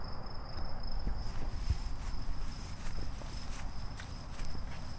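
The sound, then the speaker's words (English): Insects chirp in the evening woods in a steady, thin, high trill that runs quietly throughout. Footsteps sound beneath it, soft and irregular, on cool, wet grass. “Now we're starting to hear some bugs.”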